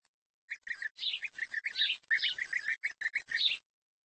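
Bird chicks, nestlings of colourful, elegant birds, call in a busy run of high, rapid chirps and squeaks that go on almost without pause for about three seconds, with no talk.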